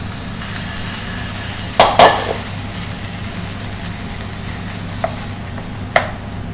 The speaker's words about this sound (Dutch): Ja, ik vind het leuk om dat gehakt in te hakken.